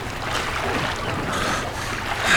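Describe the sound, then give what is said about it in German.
Water sloshes and swirls as a person in a wetsuit and diving mask swims with slow strokes, a loud, continuous wash that swells toward the end. “Denn von hier aus konnten die drei beobachten, wie jemand durchs Wasser schwamm.”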